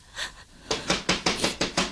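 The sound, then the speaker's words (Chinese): Someone knocks urgently on a door, a rapid, even series of hard thuds, a few softer ones at first, then louder ones in quick succession. “不知道谁拍门拍得这么急呢？”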